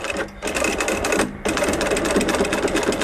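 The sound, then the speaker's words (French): A sewing machine stitches a strap with thick thread to fit a quick-release buckle, giving a dense, rapid mechanical chatter that runs steadily throughout, with two brief pauses early on. “Là, actuellement, je suis en train de coudre une sangle avec une accroche rapide. Le fil, il est assez épais.”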